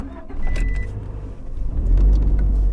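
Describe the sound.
A car drives slowly around a statue on an old shipyard site. A low, steady engine rumble and road noise hold throughout and swell a little louder toward the end, with no voices.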